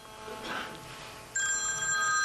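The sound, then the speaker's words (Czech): A telephone starts ringing partway through, a steady, bright electronic tone that sounds clearly and alone after a stretch of quieter background noise. “já jsem věděl, že mi bude zvonit telefon, já se omlouvám.”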